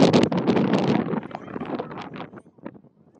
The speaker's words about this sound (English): There's some very strong wind, yes.